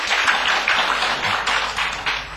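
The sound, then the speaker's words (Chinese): Audience applause welcoming a guest, a senior Motorola executive, at a public event: a dense, steady wash of clapping from many hands fills the whole clip at an even level, with no voices over it. “我们用最热烈的掌声来对他的到来表示欢迎。”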